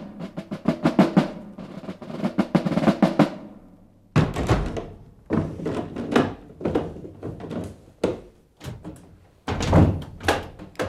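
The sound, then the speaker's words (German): A door being shut and locked, heard as a run of many wooden knocks, clunks and clicks of handling and latching, with a heavier thud partway through and no voices. “Warum schließt man uns denn hier ein?”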